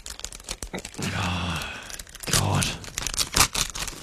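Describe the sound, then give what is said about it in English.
Paper envelope torn open: a few rough, crackling tearing bursts of paper, loud and uneven, with brief voices in between. “You can open up that envelope and we all find out together.”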